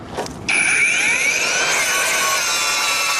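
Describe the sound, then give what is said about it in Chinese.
A handheld cutting machine grinds through leftover residue on a floor, kicking in abruptly after a brief lead-in and holding a loud, high-pitched whine whose tones glide and waver as the blade bites. “打不下来的呢就用这个切割机切。”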